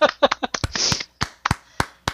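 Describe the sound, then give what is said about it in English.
Sparse hand claps answer a request for applause. A brief voice is followed by a handful of slow, evenly spaced sharp claps with short gaps of silence between them. “That deserves an applause. Round of applause.”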